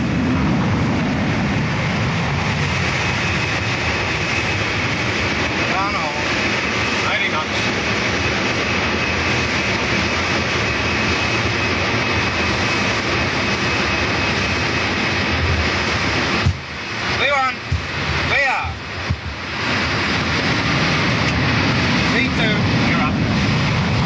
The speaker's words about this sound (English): the sleek airliner lunges forward and quickly gathers speed straight down the middle of the runway